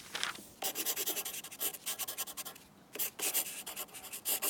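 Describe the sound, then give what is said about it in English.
Pen scratching on paper as a confession is written: quick bursts of scratchy strokes separated by short pauses, faint and alone. “Okay, don't lose your head over it. I'll write a confession for you.”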